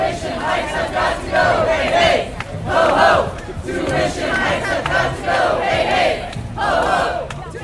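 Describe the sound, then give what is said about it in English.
Students protest outside Concordia University's GM building before a vote on raising tuition. A loud crowd chants and shouts in repeated rhythmic swells. “Most students have gone home for the holidays, but what you're hearing now are the ones that stuck around.”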